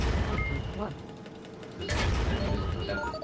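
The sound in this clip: Gunfire from a destroyer in a video game: a sharp burst cuts in partway through over a continuous mechanical grinding drone, with a voice speaking.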